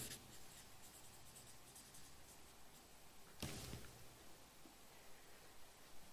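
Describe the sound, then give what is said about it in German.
Faint scratching of a pen writing on paper, a steady low rasp with one brief, sharper stroke midway, and no talk. “schreibe ich noch auf”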